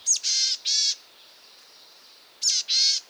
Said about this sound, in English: listen in the dense spruce forests of Canada for the call of the boreal chickadee.